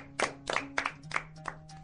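Hands clap in a handful of uneven, sharp bursts over a faint steady hum, each short round of claps separated by brief gaps.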